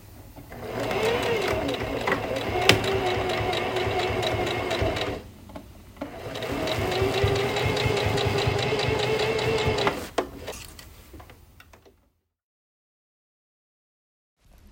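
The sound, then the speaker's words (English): A sewing machine stitches fabric in two long runs of rapid, even mechanical whirring and clatter, with a short pause between them. The motor then stops and leaves silence. “Here's a little bit of me sewing.”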